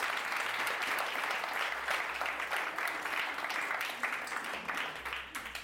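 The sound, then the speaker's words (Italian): Applause from a school class, a steady wash of many small hands clapping together that holds evenly throughout and eases off slightly at the very end; quiet overall. “E ora passo la parola a Carolina. Applauso,”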